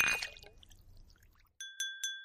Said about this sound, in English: Let's toast. Cheers. Cheers.